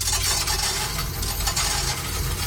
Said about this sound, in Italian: Hai cambiato tutte le monete che avevi in casa, sì, da mettere sul conto in banca